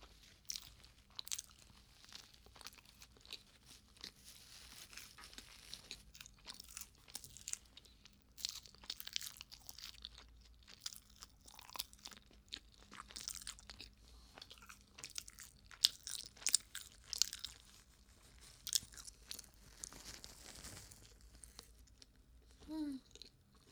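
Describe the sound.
Crunchy food being chewed, a long run of many faint, crisp crunches and bites in an uneven rhythm, mostly without talk.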